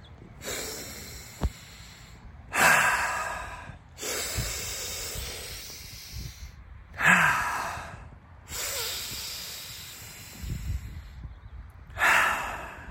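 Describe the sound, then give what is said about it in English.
Slow, deliberate deep breathing, with a few long airy inhales and exhales separated by short pauses, soft and unhurried. “Consciously breathe. Breathe with me now.”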